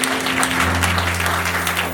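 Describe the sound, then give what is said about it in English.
Audience applause at a church service: many hands clapping steadily and fairly loudly throughout, with a low constant hum underneath. “Just a round of applause.”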